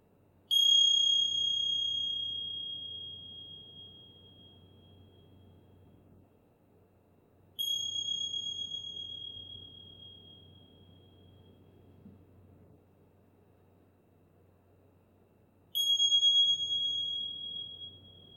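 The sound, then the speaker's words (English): A meditation bell is struck three times at long, even intervals, each strike a clear, high ringing tone that slowly fades before the next, over a quiet low hum. “receiving the sound of the bell”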